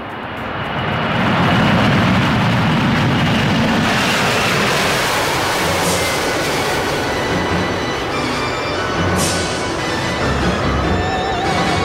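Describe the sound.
An airliner taking off gives a dense, loud engine roar that rises at the start and then holds steady, filling the whole stretch.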